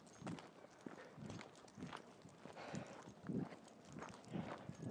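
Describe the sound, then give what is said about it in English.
Footsteps walking along a bumpy dirt track with rocks underneath, on a path a couple of metres wide; a steady, regular series of crunching steps continues throughout, with no talking. “The path along here is reasonably wide. It's probably a couple of metres wide. As you can probably hear, it's sort of it's dirt track, basically. Little bit bumpy in places with rocks underneath.”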